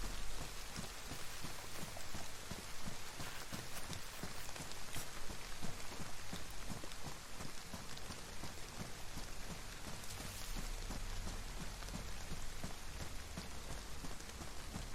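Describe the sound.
Rain falls steadily in a video game, a dense, even hiss of drops that stays fairly loud and unchanging for the whole stretch, with no voices over it.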